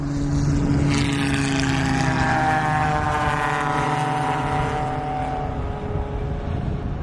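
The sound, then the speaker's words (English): Engine drone of racing cars passing slowly after leaving the pit lane, a steady, loud, low humming note with slight shifts in pitch that holds for the whole clip with no talk. “Somebody just came out of the pit lane, joining the race late, but something happened. So they They are not going at speed here as they pass.”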